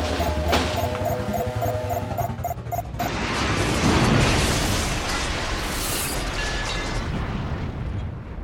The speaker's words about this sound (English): The rocket ship hits the planet and is broken to pieces.